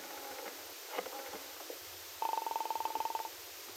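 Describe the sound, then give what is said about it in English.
Someone dials a number from a telephone booth. A rapid run of short, evenly spaced tone pulses lasts about a second and comes after a few soft clicks and handling noises. The whole clip is faint. “She hurried into a telephone booth and dialed the number of Del Shipley's apartment.”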